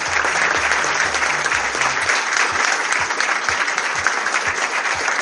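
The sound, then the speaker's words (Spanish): Loud, continuous applause at the closing ceremony of the second Mar del Plata film festival, greeting the winner of the one-minute video category; a thick, steady roar of many clapping hands. “fuerte el aplauso”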